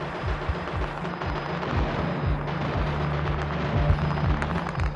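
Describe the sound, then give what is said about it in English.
Gunfire from a firefight breaks out as a house in Faisalabad, Pakistan, is surrounded during a capture. It comes as a dense, continuous rumble with many low booms and bursts repeating at a steady loudness throughout. “As they surrounded it, a firefight broke out.”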